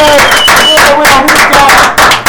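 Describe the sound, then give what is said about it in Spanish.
A studio audience applauds to welcome a musician guest on a talk show. Short, loud clapping lasts about two seconds, with sustained tones mixed in and a brief dip near the end. “Para primeros aplausos.”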